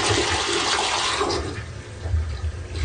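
A small children's toilet, made for potty training, flushes with a loud rushing wash of water that eases after about a second into a lower, gurgling refill.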